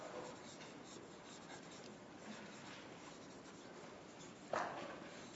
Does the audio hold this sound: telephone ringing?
no